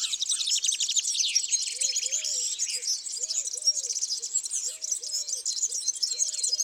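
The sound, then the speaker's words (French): Birdsong from sparrows, a serin, a black redstart and a collared dove. Dense, bright chirps and rapid high trills run continuously over a series of soft, low, repeated coos. “Nous avons entendu les cris des moineaux, le chant d'un serin,”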